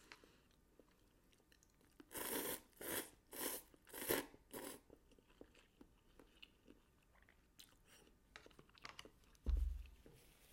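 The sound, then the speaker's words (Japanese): Crunchy bites and chewing while cup noodles are eaten: a run of loud crunching bursts, then softer irregular chewing clicks and crackles. “お腹空いてたから喋りたいよりも食べたいが今勝ってますもうすぐ完食”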